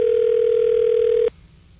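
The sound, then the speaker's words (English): A telephone tone while a call is placed: one steady, mid-pitched tone held for over a second, then cut off abruptly into near quiet. “let me try and see if I can reach Kim. dial while I talk.”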